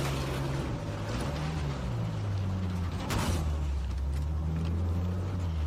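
A car engine hums steadily while driving, a low droning tone whose pitch shifts slightly as the speed changes, with no talk over it.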